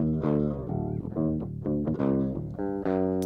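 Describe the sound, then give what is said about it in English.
Clean electric guitar tone from a Strat, with many plucked notes and chords in a quick, rhythmic pattern. Each attack is bright and rings with strong harmonics, and the guitar plays alone at a moderate level. “the clean tone sounds like this.”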